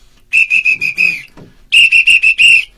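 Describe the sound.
A whistle is blown in two rapid series of short, shrill, steady-pitched blasts separated by a brief gap, each blast loud and sharp with no talking.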